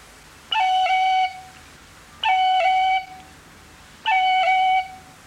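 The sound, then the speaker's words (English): Three short F sharp rolls on a whistle, each a clear sustained note with a quick cut at the start and a brief tip dip in the middle, evenly spaced with pauses between, played gently and bright. “When those two are played together, they sound like this.”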